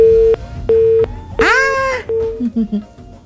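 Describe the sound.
A phone-in call is cut off, leaving a steady mid-pitched line tone that beeps in short, evenly spaced pulses, briefly overlapped by a voiced sound before the beeping resumes.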